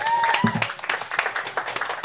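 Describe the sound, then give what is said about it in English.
Applause from the audience at a Boston sci-fi film festival panel, given as a round for the filmmakers: a short, busy spatter of clapping with people talking over it. “again, one more big round of applause for our filmmakers.”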